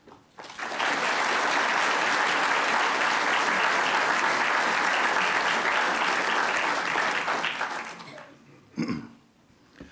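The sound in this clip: An audience applauds to welcome a speaker to a lecture: loud, steady clapping that holds for about eight seconds, then fades out, followed by one brief thump and quiet.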